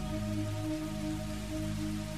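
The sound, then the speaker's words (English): Soft, gentle rain falls as a steady, faint hiss and patter with no breaks and no voices. “perhaps noticing that soft, gentle rain in the background”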